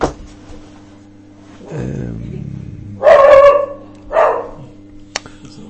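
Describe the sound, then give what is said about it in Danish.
A visiting dog barks in the background, giving a few sharp, loud barks with short pauses between them over a steady low hum. “hvis I hører en hund, der gør i baggrunden, så er det fordi, at vi lige har besøg af en hund”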